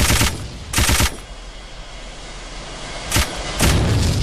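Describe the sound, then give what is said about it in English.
Level-3 machine gun firing in a ship-shooting video game. Loud, crackling automatic bursts come in four short blasts, two close together, a pause, then two more. “Your base was repaired completely. Machine gun. Level 3.”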